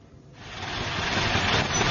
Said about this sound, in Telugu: Sir ఏదో auto వస్తోంది, ఆపుతాం, మీరు అందులో వెళ్ళిపోండి.